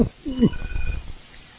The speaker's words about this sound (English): Oh. Somebody's phone's talking to them. But we won't say who.